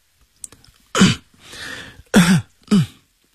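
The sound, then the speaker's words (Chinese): A man coughs softly three times, short throaty bursts with a longer breathy exhale between the first two. “他轻轻地咳嗽几声，将痰吐进痰盂”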